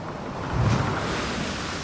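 Sea waves crash and surge around a wrecked ship during a storm: a broad, roaring wash of water and wind that swells near the middle, then holds steady, with no voices.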